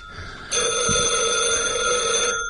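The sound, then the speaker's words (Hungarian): A telephone bell rings in one loud, sustained, bright burst of about two seconds after a brief quiet start, with no voices. “Csöngessen még egy kicsit. Csöngessen.”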